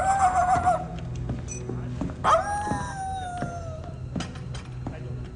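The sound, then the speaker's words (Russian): A man imitates a dog with his voice, giving a short yelp and then a drawn-out howl that slides downward in pitch, followed by quieter murmuring. “Старлей уходит, голосом имитируя собаку.”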